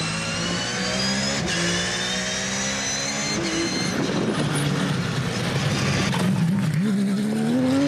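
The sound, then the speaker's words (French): Very low sports car accelerating out of corners, its engine a steady loud drone that shifts in pitch and climbs as it pulls away near the end. “la voiture est très très basse. Et comment ça ressort des virages, c'est un missile.”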